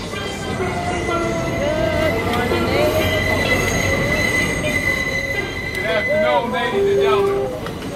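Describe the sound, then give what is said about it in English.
New York subway Q train running, its wheels squealing in drawn-out high whines over a constant rumbling roar, with people talking underneath. “The Q Train.”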